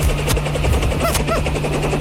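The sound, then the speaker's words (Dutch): A large helicopter landing in a parking lot sends out a loud, continuous rotor thudding and engine roar that holds steady through the whole clip, with no voices over it. “Dan landt hier een enorme helikopter.”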